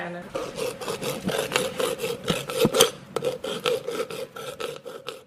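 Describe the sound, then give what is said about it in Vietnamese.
Silver is hand engraved with a chisel and hammer at a family silversmith's home in Bầu Trúc village, Ninh Phước, Khánh Hòa, Vietnam: many quick, irregular metallic taps and scrapes over a faint, steady ringing tone. “Đó là tiếng chạm khắc bạc”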